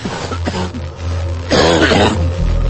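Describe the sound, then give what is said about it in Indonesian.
A man coughs, a harsh, broad burst that sounds like throat clearing and rises out of a low background hum, fairly loud and heard on its own without talking. “Pak, batuk ya?”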